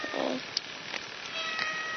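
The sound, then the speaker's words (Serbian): A pet cat meows once, a short meow near the start over a steady hiss that continues faintly to the end. “To je moja mačka, on se zove Mačak Čačak”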